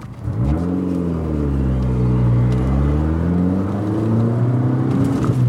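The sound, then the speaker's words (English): Car driving along a highway such as I-95 and the New Jersey Turnpike: a steady, loud engine drone with a low hum whose pitch climbs early on, then wavers gently under constant road noise. “I make the drive up I-95 and then the New Jersey Turnpike to the town of Parsippany.”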